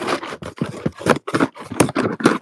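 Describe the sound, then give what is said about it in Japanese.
Packaging rustles and crackles as wish-list gift parcels are opened, a run of many short, dry scraping and crinkling bursts separated by brief gaps. “そういう皆様からいただいた欲しいものリストみたいなものを今、開封しているところで。”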